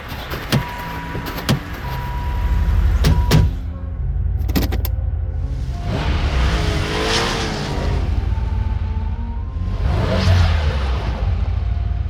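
A car engine revs hard while the car is stuck in a snowbank. A few sharp clicks come early, then two loud surges of straining engine roar rise and fall over a constant low rumble.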